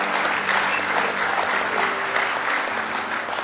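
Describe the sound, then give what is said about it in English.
Congregation applauding during a church worship service: dense, steady hand clapping that runs loud and unbroken through the whole stretch, with no gaps or single claps standing out. “Give him one more big hand clap of praise if you love him with all your heart.”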